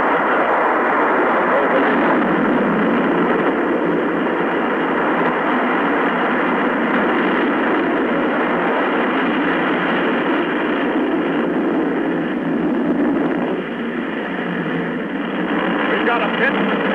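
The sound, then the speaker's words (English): Steady, heavy roar of the MA-6 rocket at ignition and liftoff, a dense, band-limited rumble that holds at an even, loud level throughout with only a slight dip near the end. “Ignition. Liftoff. The MA-6 vehicle.”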